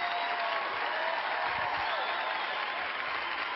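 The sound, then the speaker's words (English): Audience applause welcomes Dave Ramsey across several church campuses: dense, loud clapping from a large crowd that stays even and unbroken throughout. “Would you put your hands together, all of our campuses, and welcome Dave Ramsey.”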